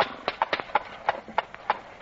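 Horse hooves clip-clopping: many crisp, hollow knocks in a quick, fairly even trotting rhythm, with no other sound clearly present.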